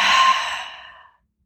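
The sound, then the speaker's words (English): A deep breath exhaled during a guided breathing exercise, one long, breathy sigh that tapers off over about a second into silence. “Big breath in. Down to your toes, out to your fingertips, washing through your body, and exhale.”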